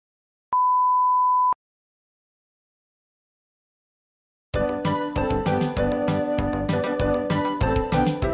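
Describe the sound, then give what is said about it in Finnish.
Christmas music plays with bright jingling, bell-like tones and a busy rhythm, starting after a single steady one-second beep and a few seconds of silence. “Mutta miksi ihmeessä soitan joulumusiikkia keskellä kesää?”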